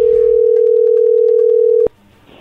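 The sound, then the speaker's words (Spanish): Loud, steady single-pitch telephone line tone as a call comes in, cut off abruptly by a sharp click near the end and followed by faint line hiss. “ahí entró la llamada”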